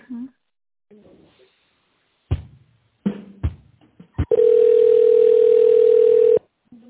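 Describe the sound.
Telephone tones during a call transfer: a few short clicks and blips, then a loud, steady, unbroken single-pitch tone lasting about two seconds before it cuts off abruptly.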